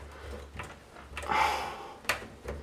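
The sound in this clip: Soft scraping, rustling and clicking as hands feel around inside a computer case near the power supply, with a brief louder rustle partway through and a few sharp knocks, fairly faint throughout and without talk.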